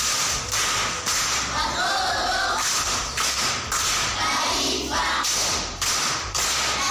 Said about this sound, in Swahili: Haya, makofi kwa mjomba.